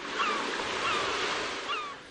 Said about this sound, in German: In einer Gegend, wo wenig Touristen sind, man hört also nur Möwen und Wellen.